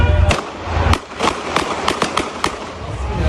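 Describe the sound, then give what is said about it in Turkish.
Sharp bangs of a police officer's warning shots fired into the air while stopping a suspect car. Several loud, cracking reports in irregular succession. “Sürücü kaçmak isteyince polis silahını çekti, havaya uyarı ateşi açtı.”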